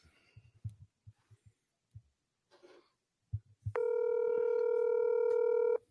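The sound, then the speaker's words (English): A telephone being dialed to call someone back: a few soft, low thumps, then a loud, steady buzzing line tone with strong harmonics that holds to the end. No voices. “It takes twice sometimes to get her. Bomb that phone like Nagasaki.”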